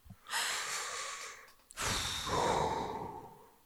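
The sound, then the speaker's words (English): Deep breathing: one long, airy breath in, then after a brief gap a longer breath out. Both are soft, steady rushes of air with no words spoken. “Deep breath in. Out. And then just do that two more times and that's fine.”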